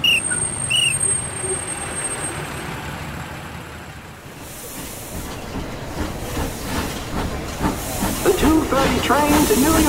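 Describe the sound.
A steam train pulls into a station platform, a broad hiss of steam over a low rumble that dips briefly, then swells again as a rhythmic clatter of wheels builds toward the end.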